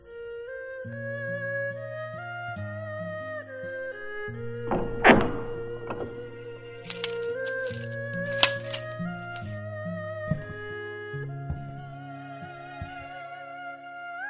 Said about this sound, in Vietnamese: Cửa lao mở, khóa rơi trên mặt đất, Bạch Tử Họa